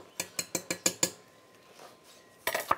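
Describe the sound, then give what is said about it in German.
Metallic clinks of a utensil against a pot as sage is fished out of a simmering pot: six quick, sharp taps in steady rhythm, a pause, then a brief cluster of scraping clatter. “Das fängt jetzt hier an zu köcheln. Jetzt fische ich den Salbei hier mal kurz wieder raus.”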